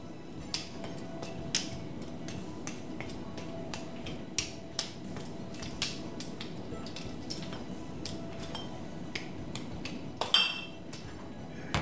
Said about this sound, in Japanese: 今日はフレアテンディングバーテンダーコンペティションで見事優勝した時のカクテルを僕の目の前でフレアしていただいて作ってもらえないですか